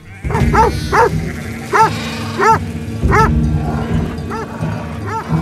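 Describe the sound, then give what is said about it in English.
Dogs barking as they chase off a herd: many sharp, harmonic barks and yips come in an irregular series over a low, steady rumble. “The other dogs join in, and the herd heads off in a slightly panicked rush.”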